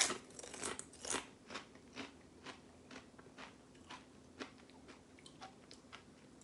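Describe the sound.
Faint, crisp crunching as someone bites and chews a cheese-flavoured snack, many short crackly crunches in an irregular rhythm, heard alone without talk.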